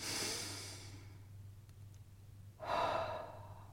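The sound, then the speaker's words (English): Two long, deep breaths separated by a quiet pause, each a soft, airy rush that swells and fades, with no talking. “So, take a deep breath. No, really, breathe with me for a second.”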